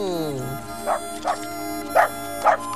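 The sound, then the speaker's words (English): A dog whimpers in a falling whine, then gives four short, sharp barks spaced at uneven intervals over a steady tonal background. “Beautiful animal, mammal, canine, dog, mutt.”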